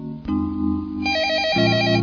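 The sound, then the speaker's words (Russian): A phone ringtone cuts in at the moment of waking: bright electronic melodic tones over a sustained lower drone, with the notes shifting about a second in and again near a second and a half, continuing steadily to the end. “но тут звонок.”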